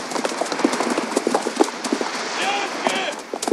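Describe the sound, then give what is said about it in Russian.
A mounted group of horses with riders walks across sand by the water's edge toward a boat, producing many irregular, overlapping clip-clop hoofbeats in a steady walking rhythm, with speech at times. “Отряд Абдулы идет шагом. Абдула в белом халате, наброшенном на английский френч. Всадники подъезжают к баркасу, стоящему на песке у воды.”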